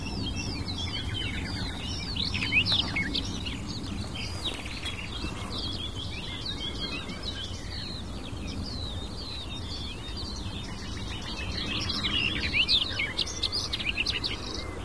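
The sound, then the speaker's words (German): Garden warbler song, a babbling, rapid, sometimes tumbling warble, runs continuously alongside a nightingale's song. Both are high and fairly steady in loudness, with a low rumble beneath them. “Wieder dieser plätschernde, sich manchmal überschlagene, hektisch vorgetragene, wohlklingende Gesang. Dieser Grasmücke begleitet von der Nachtigall.”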